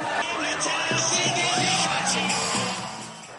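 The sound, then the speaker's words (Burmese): Home fans at Old Trafford give Arsene Wenger a reception in a dense, loud wash of crowd noise with yells and whoops. It stays steady throughout and eases slightly at the end. “Arsene Wenger's final return to Old Trafford he gets a nice reception from the home fans”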